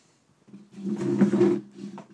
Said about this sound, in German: Mal den Stuhl richtig hinstellen hier.